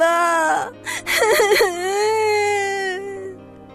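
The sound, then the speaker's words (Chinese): Loud, sustained crying from someone lying face-down on a mountainside in grief: a short broken sob, then a long wavering wail that holds steady and slowly fades. “阿丹伤心地趴在山上大哭了起来。”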